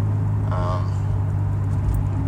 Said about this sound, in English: So right now I'm driving to my girlfriend's house.